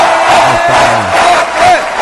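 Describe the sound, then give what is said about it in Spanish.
A crowd ovation sound effect: many voices cheer and shout in a loud, continuous roar. A few whoops and yells rise above the dense noise throughout. “Va con ovación, Marcela Sabina”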